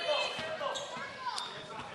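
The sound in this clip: A basketball is dribbled on court during a women's game: a few dull, thudding bounces under steady commentator talk and crowd murmur.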